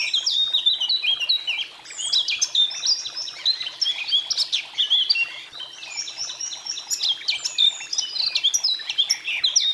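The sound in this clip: A songbird sings in early spring to mark its territory. It gives loud, continuous runs of high, rapid chirps and trills with no pause and nothing else audible.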